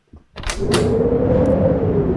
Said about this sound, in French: rentre vite et ferme la porte